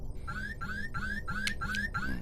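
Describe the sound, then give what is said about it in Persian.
An electronic alarm ringing in a steady, loud loop of six repeated rising whooping tones in even rhythm, with no talk over it. “زنگ خطر.”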